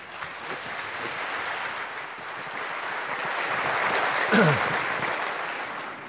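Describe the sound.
Steady applause from an audience welcoming a pastor who is coming up to speak. The clapping is dense and sustained throughout, swelling slightly toward the end, with no talk over it.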